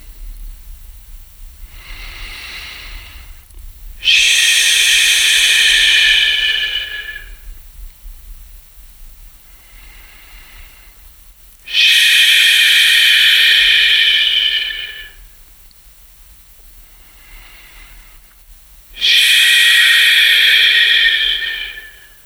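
Three forceful hissing 'ish' exhalations from a guided breathing exercise, each roughly three seconds long and loud, separated by quieter gaps.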